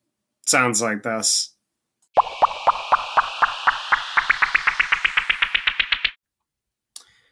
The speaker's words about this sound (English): I think I'm going to do the pop, pop, pop, pop, pop, the one marked as popcorn.